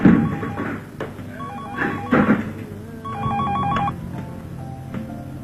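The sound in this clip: An outgoing call rings through a telephone: electronic ringtone bursts repeat a few times over a low, steady background hum.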